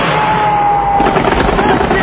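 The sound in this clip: Heavy gunfire crackles through a combat scene near buildings held by enemy forces, a dense, continuous, loud barrage of shots with no clear pauses.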